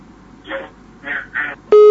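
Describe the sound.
Brief, loud electronic tone of a disconnected call on a live radio call-in line, sounding once at the end after three short bursts of voice.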